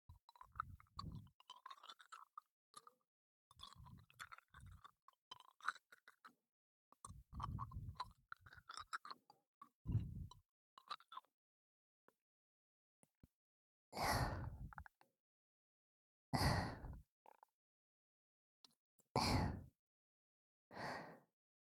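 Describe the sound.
Licking a hard candy: quiet, wet mouth sounds of smacking and sucking come in irregular bursts separated by silent pauses, with a few louder, fuller passes later on.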